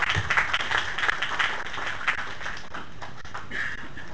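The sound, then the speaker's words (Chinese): A small group clapping for themselves at the end of a gathering: uneven, sharp claps that are strongest at the start and thin out slightly toward the end. “自己给自己鼓一下掌，谢谢大家。”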